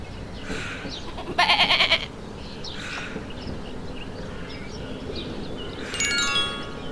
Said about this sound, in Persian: گوسفند